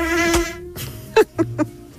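A mosquito buzzes with a thin, steady, high whine rich in overtones, which breaks off and returns as a few short, sharp bursts of buzzing.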